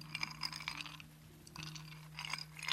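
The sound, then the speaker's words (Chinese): Ice cubes shaken in a cocktail shaker make quiet, rhythmic clattering and clinking in a few short bursts separated by brief pauses, over a low steady hum. “加入冰块，摇到杯壁起雾就差不多了，”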